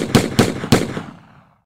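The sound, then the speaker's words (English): Gunfire in a tabletop role-playing scene: three sharp, loud shots in quick, slightly uneven succession, then a fading tail, with no voices. “You open fire.”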